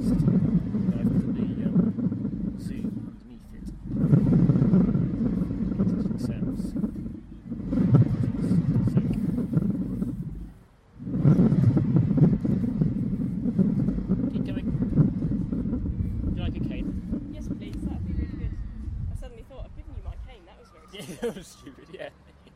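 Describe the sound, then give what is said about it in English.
Rumbling of a turning wheel, recorded with a Zoom recorder placed underneath it: long, sustained low rumbles broken by two brief pauses, then a quieter tail near the end. “I've stood the zoom underneath the wheel thing you were turning just to see if it makes an interesting sound.”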